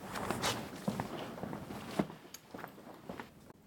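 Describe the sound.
Soft footsteps walking toward a tactile model of Lund Cathedral, several irregular, faint steps over low background noise, without talk.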